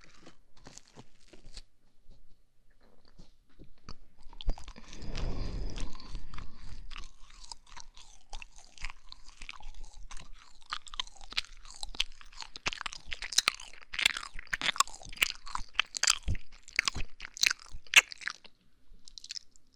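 Crunchy chewing from someone being fed food by another person: many quick bites and crackling crunches in an irregular rhythm, sparse at first and growing denser and louder, with no talk.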